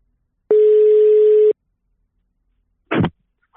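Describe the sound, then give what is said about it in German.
A telephone call ringing through: one steady, mid-pitched ringback tone about a second long, then silence and a short noisy burst as the line connects. “Also rufen wir ihn einfach mal an, oder Robert? Klingen wir durch.”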